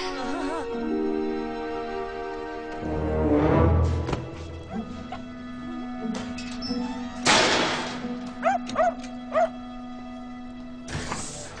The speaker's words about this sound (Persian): شماست؟ بله سگ ماست.